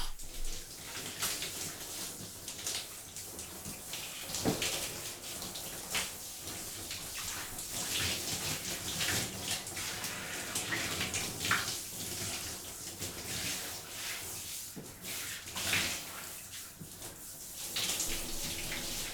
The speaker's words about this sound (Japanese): 少しお湯を当てますね。